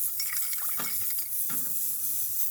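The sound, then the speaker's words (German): An ultrasonic bath runs with liquid holding suspended rust particles, orange and dark brown, being broken up. It gives a steady, bright hiss with a few soft watery clinks and bubbling accents. “Jetzt werden wir das Ultraschallbad wieder ausmachen.”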